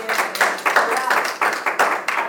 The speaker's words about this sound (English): Now, come on, let's give the Lord a clap for this.